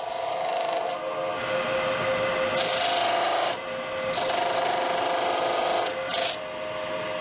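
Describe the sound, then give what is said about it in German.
A rotary milling tool grinds a large piece of amber, rough-cutting the contours of a chess queen. A steady high whine runs under gritty, rasping grinding that swells and eases in several bursts, with no talk. “Er zeichnet die Umrisse auf und beginnt mit dem Vorfräsen der groben Konturen.”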